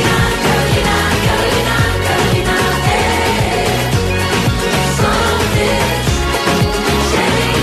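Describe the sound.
A new pop song plays loud and unbroken, with a steady pulsing bass beat beneath bright, layered instruments.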